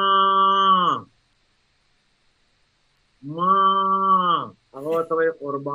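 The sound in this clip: A cow and her calf moo: two long, drawn-out lowing calls separated by a silent gap, then a few short, broken calls in quick succession.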